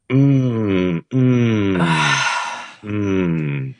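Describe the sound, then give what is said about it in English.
A person groans: three long, low, drawn-out moans that each sag slightly in pitch, with a breathy, sighing exhale between the second and third. “And I'm just going to keep groaning.”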